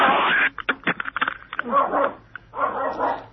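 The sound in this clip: A dog named David barks in a run of sharp, yipping bursts with short pauses between them, while a person talks alongside.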